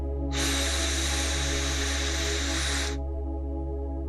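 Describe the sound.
A long, deep inhale during a guided breathing exercise, a steady airy hiss lasting nearly three seconds over a low sustained drone.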